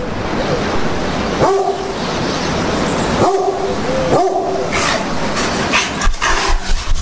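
A dog yelping and whimpering, with a few short, high whiny yips breaking through a constant loud rushing noise.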